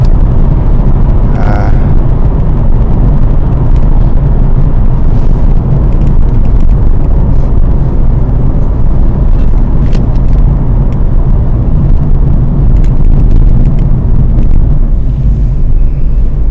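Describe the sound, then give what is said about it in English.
A Ford Focus automatic is driving on a UK road. A loud, constant engine and road rumble runs throughout, with only small changes in the low drone. “For anyone who's listening, I'm currently driving a Ford Focus automatic here in the UK.”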